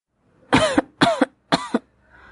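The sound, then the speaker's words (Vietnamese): A woman choking in thick smoke gives three harsh, violent coughs, evenly spaced rough bursts that stand loud and alone. “ho sặc sụa trong làn khói dày đặc.”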